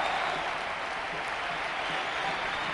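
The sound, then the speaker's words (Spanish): A football stadium crowd stands and applauds a player returning from injury, producing dense, continuous clapping that holds an even, loud level from start to finish. “Todo el público en pie, rascando con las botas el campo como si fuese un toro Mikel Oyarzabal.”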